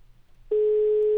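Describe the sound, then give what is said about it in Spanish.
Ringback tone of an outgoing telephone call: one steady, loud, unbroken mid-pitched tone begins partway through and holds to the end over a faint low hum, with no talking. “Vamos a marcarle. Venga, ahí está la llamada.”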